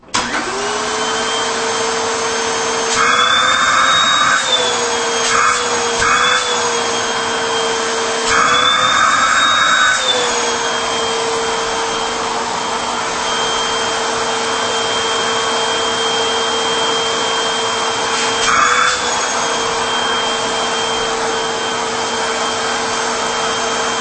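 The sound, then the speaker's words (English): An Aeris Classic 90th Anniversary Edition vacuum cleaner running at its single motor speed, a loud, steady whining drone that briefly shifts in tone a few times. “And this one doesn't have motor speed. It's just one speed. So here we go. The Aeris Classic 90th Anniversary Edition.”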